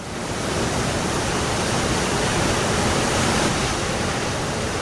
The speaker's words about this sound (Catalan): és el so del mar, les ones aquestes que van i venen i que jo crec que ens transporten